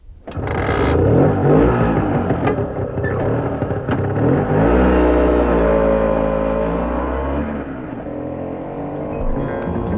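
A car engine that had refused to start finally catches, then gives a loud, rough roar that revs up and eases back. It drones on steadily for several seconds before settling.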